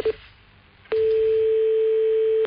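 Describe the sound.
A telephone line tone after a call is cut off: a brief beep, then near silence, then a loud, steady single-pitched tone that starts abruptly and holds unbroken to the end.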